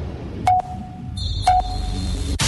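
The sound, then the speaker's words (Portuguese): Time-signal tone for affiliated radio stations: two short, steady mid-pitched pips about one second apart over a faint low hum, with a thin higher tone running through the second half. “Atenção, emissoras associadas, para o toque de 3 segundos.”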